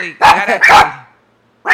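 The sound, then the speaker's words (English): Dogs bark in a few loud, harmonic bursts, two close together and then a silent pause before another bark cuts in at the end. “Had to cut because of my ridiculous dogs who will be euthanized this evening.”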